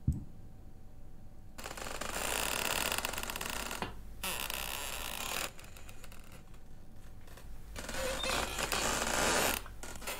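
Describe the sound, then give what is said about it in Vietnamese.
Creaking of a half-open gate door swaying in the wind at night: several long, grating creaks with short pauses between them, at a moderate level with no voices. “Gió đang lùa vào, cánh cửa khẽ đung đưa, cho đến khi vang lên những tiếng ken két, đến rợn người trong đêm.”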